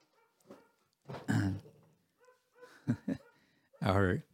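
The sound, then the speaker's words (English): A friendly dog barks a few times, with short, voiced, tonal barks separated by pauses of a second or so, the last bark the loudest. “our friendly dog here is making sure that we are fully protected”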